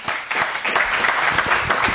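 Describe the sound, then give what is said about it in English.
Audience applause fills a live candidates' event, a dense, steady wash of many hands clapping that holds at an even level for the whole two seconds with no voices over it. “Candidates, audience, everyone, put your hands together for a great night.”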